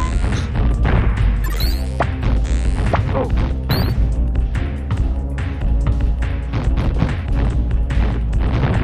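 Gameplay audio from a Michael Jordan basketball video game: a constant, regular bounce of a dribbled ball under loud, dense crashing and thudding game sounds that run without a break.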